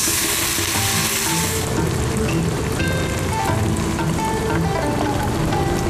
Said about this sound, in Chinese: 然后下入蒜、姜炒香，加入豆瓣，炒香后加入火锅底料，炒干水分后加入鲜汤